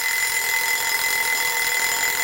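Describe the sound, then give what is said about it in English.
A small alarm clock rings without a break, a bright, buzzing metallic ring held at an even, loud level for the whole stretch, with no voices over it. “So that's what that little alarm clock is about.”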